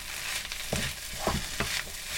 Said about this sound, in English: Sauce is going in the pan. And then add your sauce from the other bowl.